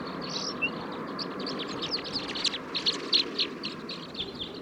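Song of a male bird from a wild flock, with caged captive birds nearby: many short, high chirps and trills come in quick bursts over a steady, rushing background noise.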